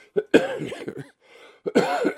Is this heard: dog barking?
no